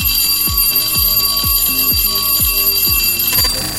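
A school bell rings with a fast, even hammering of low strikes under a bright, sustained metallic ringing. It stays steady and loud throughout, with no talk.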